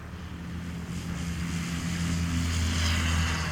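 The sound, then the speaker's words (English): Propeller airplanes, including Stinson aircraft, take off with a steady droning engine roar and low humming tones that build slightly in loudness throughout. “The Stinsons and Bessie are both in the air. Backing up to the runway.”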